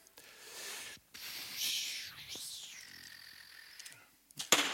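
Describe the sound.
An arrow shot in a video game gives a soft, sweeping whoosh with a faint tonal glide. A sharp, loud hit follows near the end.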